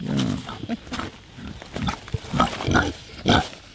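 Kunekune pig, a female, grunting in a string of short, rough, snuffling grunts that come in irregular bursts and vary in loudness.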